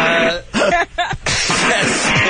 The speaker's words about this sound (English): I was just clearing my throat.